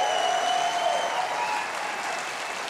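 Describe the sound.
Studio audience applause for the house band during a theater show, a dense, steady wash of clapping that holds at an even, loud level throughout with no voices over it.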